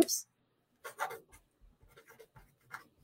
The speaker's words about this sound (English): let me write it.